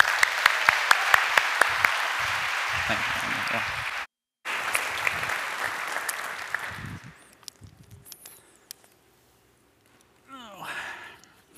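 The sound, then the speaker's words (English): A church audience claps loudly to welcome a guest speaker. The sustained applause breaks off briefly, resumes, thins out and fades to near silence before a few faint sounds at the end. “put your hands together and give a warm First Church welcome for Daniel Overdorf.”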